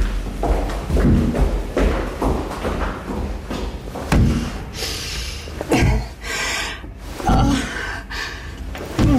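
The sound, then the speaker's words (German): A person bangs their head against the wall of an asylum isolation cell. Many heavy, dull thuds come in an irregular rhythm, loud and close together. “Warum schlagen Sie wieder mit dem Kopf gegen die Wand?”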